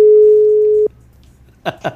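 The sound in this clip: A telephone ringing tone on an outgoing call sounds as one steady, clear, mid-pitched tone for under a second. It stops abruptly, and two short bursts of sound follow in the quiet.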